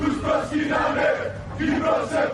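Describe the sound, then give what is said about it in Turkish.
Greek Cypriot protesters chant anti-Turkish slogans in unison at a demonstration, loud rhythmic shouted phrases that swell and fall in repeated waves. “Türkiye ve Türkler aleyhine sloganlar attılar.”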